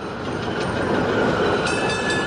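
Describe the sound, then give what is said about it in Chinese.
A tram pulling in, a steady heavy rail rumble with a dense, grinding roar that holds at an even level throughout, with thin high metallic squealing tones coming in toward the end. “一辆电车开过来”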